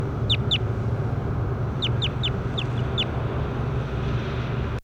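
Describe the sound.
Bird calls from a field recording: several short, high chirps that slide downward, coming in small clusters over a steady low background hum.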